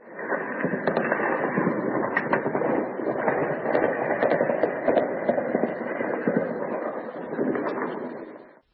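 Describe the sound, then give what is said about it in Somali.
Heavy gunfire and explosions in Kyiv during a major attack on the capital, heard as a dense, continuous crackle packed with many sharp cracks and thuds, muffled and narrow in tone throughout. “waxaana laga maqlayaa kiyev rasaas iyo qaraxyo isdaba joog ah”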